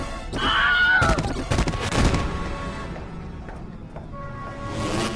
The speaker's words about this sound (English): Sorry, that's me being shot.